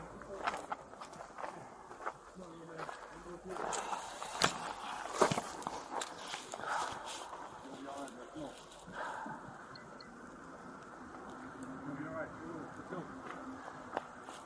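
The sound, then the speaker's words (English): Footsteps of police officers walking up to a wooden fence, recorded on body cam: irregular, scuffing steps with voices talking over them. “Body cam footage shows officers walking up the wooden fence and shining a torch on a gun they find on the ground.”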